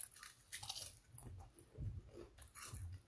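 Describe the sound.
Taco-flavoured Lay's potato chips are bitten and chewed, giving faint, irregular crunches spread over a few seconds, with no talking.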